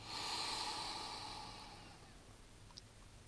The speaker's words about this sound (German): Zweite Mal, wir machen nochmal ein paar. Einatmen.